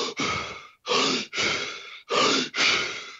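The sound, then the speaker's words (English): Controlled hyperventilation breathing, done as a deliberate breathing method: forceful, loud breaths in quick succession, each inhale followed closely by an exhale, about three in-out pairs with short gaps and no talking. “the breathing method, where essentially it looks like hyperventilation or sort of controlled hyperventilation. It's not like a panic attack. It sounds a little like this.”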